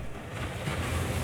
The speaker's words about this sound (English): But it's the sound of wave energy that could power a multi-billion dollar blue economy.